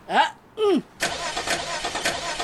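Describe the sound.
A car engine starts abruptly and settles into a steady, rough running roar after a person speaks briefly.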